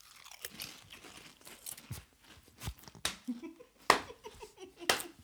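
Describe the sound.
Loud, crisp crunches of a cucumber-flavoured snack taken from a packet, several sharp bites separated by quieter chewing, irregular and close.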